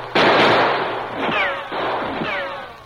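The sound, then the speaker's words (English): Warning gunshots fired toward a man creeping over the edge of an arroyo near a camp. A few sharp cracks, the first loud and abrupt, the later ones trailing into whining, falling ricochet tails. “he fired a few warning shots in the man's direction.”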